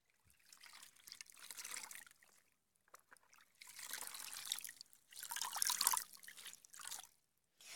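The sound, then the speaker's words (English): Water trickles and splashes as a mother washes a feverish young boy lying down, coming in a few separate bursts of pouring with short quiet gaps between them, with no talk. “Mommy has to wash you down there too. It'll help with the fever. I know what I'm doing, young man. Just lie down still and let me wash you.”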